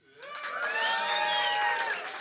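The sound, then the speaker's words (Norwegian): An audience cheers and whoops to vote for a favourite song about otters, a loud sustained cry of many voices that swells quickly, holds, then eases off near the end. “Ok, de som synes at min sang, Oterene, var den beste sangen, kan juble nå.”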